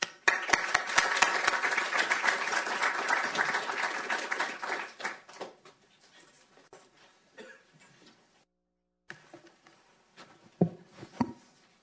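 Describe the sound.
Audience applause welcomes a speaker to a panel, a dense, loud burst of clapping for about five seconds that thins into scattered claps and a few isolated noises before fading.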